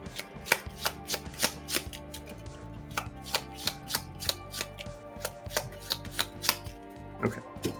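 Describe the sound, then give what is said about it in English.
Playing cards are shuffled back into a deck during a tabletop card game. The shuffle makes many crisp, sharp taps in a fairly steady rhythm over a quiet background, with no voices. “I'm going to use this downtime to play Ancestral Knowledge and shuffle that last Black Panther upgrade and Goliath and a Vibranium back into my deck.”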